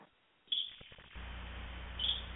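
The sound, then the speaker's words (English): Bird-like chirps over a phone line: two short, high chirps stand out above steady line hiss and low hum, one early and one near the end. “We have a bird on the line. Hello? Chirp, chirp, cheep, cheep.”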